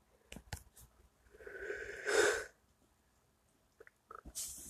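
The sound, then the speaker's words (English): A person yawns, a long, quiet, breathy intake that swells into a strained, voiced peak and then fades, with a few soft clicks and breath sounds before and after. “I'm sorry for yawning so much”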